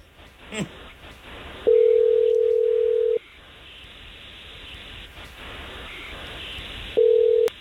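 A telephone call ringing out: a steady ring-back tone sounds twice with a long gap between the tones, over a low hiss. A brief click comes before the first tone.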